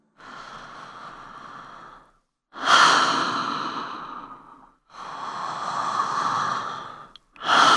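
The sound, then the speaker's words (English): Long, full breaths during a breathing exercise, drawn from the belly up to the chest, come as slow, airy, drawn-out rushes. Three full breath sounds are followed by a fourth starting at the end, alone without talk. “Now try to take the breath from the tummy and bring it all the way up to the chest. Take long, full breaths.”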